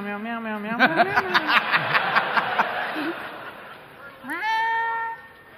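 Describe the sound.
A cat meows twice, a drawn-out wavering meow at the start and a rising one near the end, with a stretch of rhythmic laughter-like pulsing between them.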